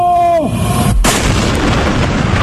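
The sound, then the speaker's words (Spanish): A falling whistle leads into a heavy blast at about one second, then a continuous roar of explosions and gunfire in a dramatized militia attack with dynamite and aerial bombing on the Simancas barracks. “Los milicianos atacan el cuartel con dinamita y la aviación republicana lo bombardea desde el aire. ¡Dos, uno! ¡Fuego!”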